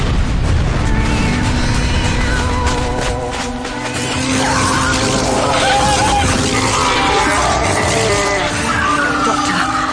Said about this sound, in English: Open fire! Romana, get down!